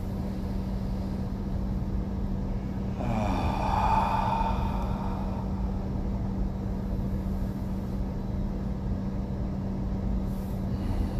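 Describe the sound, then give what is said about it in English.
A slow, deep breath during a guided relaxation, heard as a soft, airy rush that swells and fades over a steady low hum, with no talking. “Let's take another breath.”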